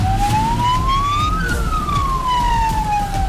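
An ambulance siren wails on a highway, its loud tone sweeping upward and then sliding back down over a steady rumble of road traffic.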